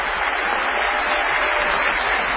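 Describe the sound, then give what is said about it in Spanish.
A huge ovation from an audience greeting an honored guest: thick, sustained applause holding at an even, loud level from start to finish. “Vamos a saludar al querido Patricio Barton con una gigantesca ovación.”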